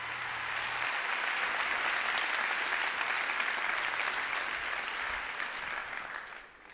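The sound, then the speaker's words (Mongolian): Audience applause at a live talk: dense, steady clapping from a large crowd holding an even level throughout, then tapering off briefly at the very end. “Жоуд алга ташицгаая бүгдээрээ.”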